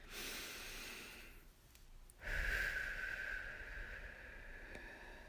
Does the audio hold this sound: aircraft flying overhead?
no

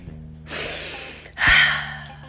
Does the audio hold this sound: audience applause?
no

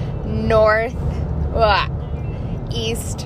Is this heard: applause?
no

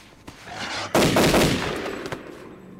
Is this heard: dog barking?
no

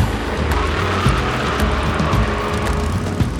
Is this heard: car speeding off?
yes

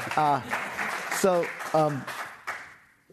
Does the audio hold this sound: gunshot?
no

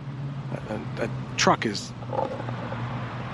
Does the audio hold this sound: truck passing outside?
yes

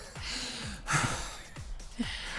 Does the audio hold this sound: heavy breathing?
yes

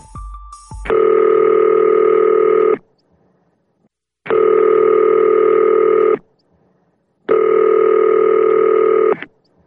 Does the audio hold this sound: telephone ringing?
yes

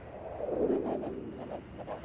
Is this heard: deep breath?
no

